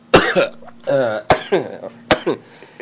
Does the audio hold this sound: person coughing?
yes